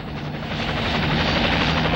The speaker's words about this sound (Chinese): 部长，直升机来了。